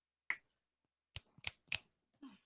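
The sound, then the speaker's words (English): Finger snaps, four crisp dry clicks: one on its own, then after a pause three in quick succession, faint and isolated against near silence. “When I snap my fingers, you will wake up feeling like the great new person you are.”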